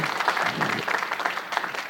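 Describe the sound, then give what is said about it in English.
A church audience gives a hand-clap offering, a burst of dense, lively applause with a steady patter of many hands throughout. “Hey, you've got a hand clap offering, okay?”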